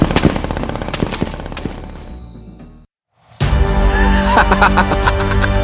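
Machine-gun and rifle fire from a group shooting on command: dense, rapid cracks and bursts that thin out, stop for a short silent gap, then return louder and sustained.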